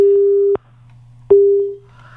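Telephone busy signal on a call to a listener: two steady, low-pitched beeps separated by a short pause, the second one fading out, over a faint constant hum.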